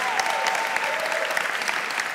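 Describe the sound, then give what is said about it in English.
A round of applause from a church audience welcoming volunteer helpers, with many hands clapping in a thick, steady wash at an even, fairly loud level throughout. “So can I just ask you just to make them feel very welcome? Yeah, we'll give them a round of applause.”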